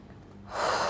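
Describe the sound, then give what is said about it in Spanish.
A single deep breath during a relaxation exercise, quiet at first and then swelling into a full, airy inhalation through the second half. “Y empieza a respirar hondo. Llena tu panza, tu pecho, como que el aire sube hasta tu cabeza y suéltalo todo.”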